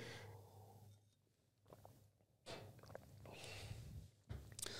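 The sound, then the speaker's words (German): Quick sip of a drink, with faint slurping, swallowing and soft breaths in a few brief bursts, quiet and without talk. “Schnell einen Schluck.”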